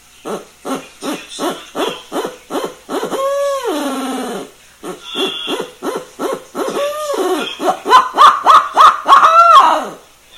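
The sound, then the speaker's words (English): A hand-made black limba wood owl hooter imitating an owl: many short rhythmic hoots broken by a few longer, wavering drawn-out calls, growing louder toward the end. “Black Limba owl hooters that I'm making right now. Start off nice and slow.”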